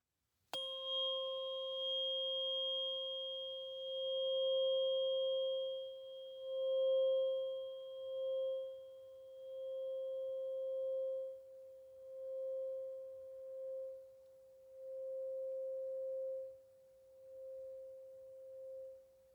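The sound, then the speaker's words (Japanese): Struck tuning fork rings out as a pure, sustained tone with faint higher overtones, its loudness swelling and fading again and again as the fork is swung, lasting steadily for many seconds. “そう、聞こえる。音叉の音がどこまでも聞こえる。”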